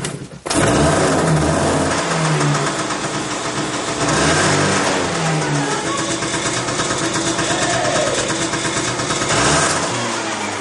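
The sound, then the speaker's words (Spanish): A motorcycle engine being started in a garage, catching abruptly and then running on in a loud, rough, continuous roar with uneven revving throughout, with no voices. “Luego, Al intenta arrancar la moto que le ha dejado Richard. Sam está con él en un garaje y lo mira atento.”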